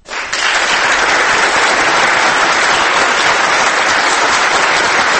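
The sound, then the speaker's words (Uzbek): Thunderous applause from an audience after a presidential oath of office, rising sharply within a moment and then holding as a dense, loud, unbroken roar of clapping to the end. “Keyin chapaklar, guldiroz qarsaklar.”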